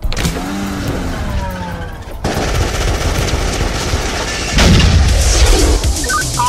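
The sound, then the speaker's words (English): Gunfire in a shootout from the film Kung Fury: loud, dense bursts of rapid automatic fire run almost without a break, turning heavier after the first couple of seconds and louder again near the end. “We have an ongoing shootout at 24th and Northwest Street.”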